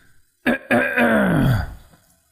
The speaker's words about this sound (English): We have to have the dramatic throat clear.